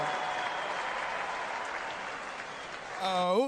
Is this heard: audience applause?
yes